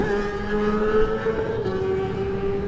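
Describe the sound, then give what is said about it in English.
Racing motorcycle engine pulling away from a road race start with clutch slip, a sustained buzzing drone that holds a fairly steady pitch throughout. “And he gets away on the Optimar bike. And I tell you what, giving that some clutch slip on the way.”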